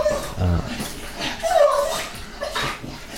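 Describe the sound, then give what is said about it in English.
An excited puppy whimpers and yips in a run of high, wavering whines and short squeaks over a constant background noise. “we got an excited puppy dog in the background, if anyone wants to know what that noise is.”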